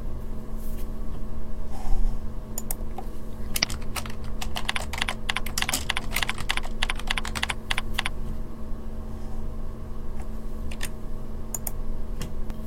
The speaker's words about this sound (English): Next, type in the folder name and press Save.